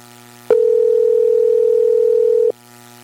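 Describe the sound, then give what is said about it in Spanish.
Telephone ringing tone heard while calling someone: a single steady, mid-pitched tone holds for about two seconds, then stops, with no voices and only a faint low hum around it. “Ahí le estamos llamando.”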